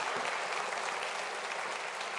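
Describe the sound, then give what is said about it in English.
Dense, continuous applause as a church audience claps for the Lord, a steady, even roar of many hands with no pauses or distinct beats. “So we applaud his triumphal entry into Jerusalem. Can I get a witness? Let's give the Lord a hand clap.”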